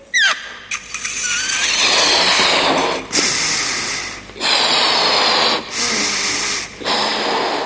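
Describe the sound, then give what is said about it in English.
A balloon being blown up with air: a series of strong, breathy blowing puffs, each separated by a short pause for breath. “Now, by way of illustration, I've got here a balloon. So if I blow this balloon up,”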